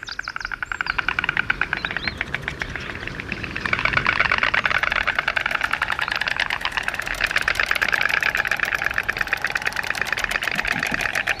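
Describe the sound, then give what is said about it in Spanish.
White storks clatter their bills at a colony nesting on top of holm oaks near Ávila in the afternoon. The sound is a dense, rapid rattling of many overlapping clatters that keeps going throughout. “por la tarde fuimos a grabar un clamor de cigüeñas, de crotalar de cigüeñas en el alfoz de Ávila, en una de esas donde están criando encima de los encinas. El clamor de las cigüeñas a primera hora de la tarde.”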